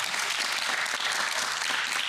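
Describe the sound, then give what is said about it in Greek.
Applause for a singer's powerful voice: dense, even clapping, moderately quiet, holds steady throughout with no break. “Οπότε θα ξεκινήσω λέγοντας τι φωνάρα είναι αυτή. Ένα χειροκρότημα!”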